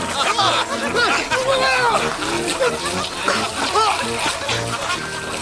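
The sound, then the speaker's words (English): Water from a garden hose sprays and splashes into a man's face in loud, uneven bursts, while workers chatter and laugh around it. “The hose shoots water in Tony's face as the workers point and laugh at him.”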